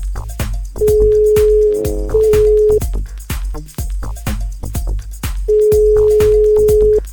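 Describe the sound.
A phone call to a grandmother is placed: a steady low-pitched line tone sounds in two long stretches, broken once by a brief warble, over loud rhythmic beats.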